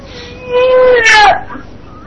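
Young child crying close to a caller's telephone during a call-in: a wavering, high-pitched whimpering wail with drooping pitch that swells twice, then starts again abruptly at the very end.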